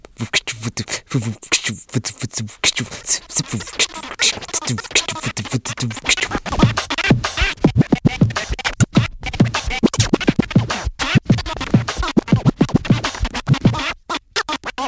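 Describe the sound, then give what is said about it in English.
Record scratching as a hand pushes a vinyl record back and forth, producing many rapid, loud rubbing strokes in a continuous choppy rhythm throughout, with no voices. “The scratch is simply taking your hand, placing it on a record, and moving the record back and forth.”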